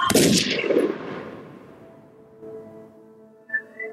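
A gunshot in an alley in Chicago: one loud, sharp blast that decays in a long, rumbling tail over about two seconds. Faint tonal sounds follow near the end.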